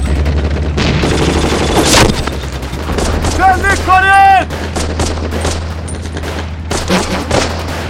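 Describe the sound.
Gunfire in a combat scene: rapid shots and bursts crackle loudly over a low rumble, with shouting voices mixed in.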